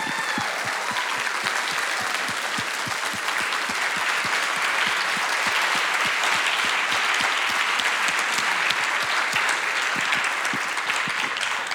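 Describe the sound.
Applause from a church audience welcoming a speaker to the stage: a dense, steady stream of many hands clapping, sustained at an even loudness throughout.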